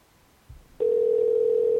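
A telephone ringback tone plays on an outgoing call. A brief low thud comes first, then a single steady electronic tone starts and holds loudly until the end.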